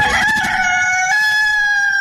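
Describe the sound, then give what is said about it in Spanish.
A rooster crowing at dawn: a single loud, drawn-out cock-a-doodle-doo, bright and strained at first, then holding a steady, shrill note to the end. “En las madrugadas de Rosareña Estéreo, mientras que el gallo canta”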